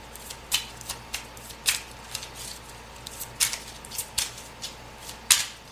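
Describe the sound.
Tarot cards being shuffled in many crisp, snapping riffles and slaps. The short bursts come in an irregular rhythm, some sharper and louder than others, with no talking.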